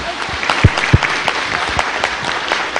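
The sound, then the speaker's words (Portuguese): Audience applause for the new authors of a book at a group session: a steady patter of many hands clapping at a moderate level, with a few sharper individual claps standing out. “Umas palmadas para os novos autores. Parabéns pelo livro.”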